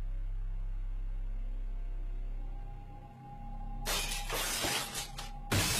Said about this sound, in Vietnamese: Ông bực mình, cầm cái ấm xuyến ném đánh bộp một cái xuống nền nhà.